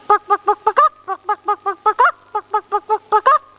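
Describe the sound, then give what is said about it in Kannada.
A hen clucking in a quick, steady run of many short, tonal calls, with brief pauses splitting them into three groups. No other sounds or voices are present. “ಕೋಳಿ ಹೀಗೆ ಶಬ್ದ ಮಾಡುತ್ತದೆ.”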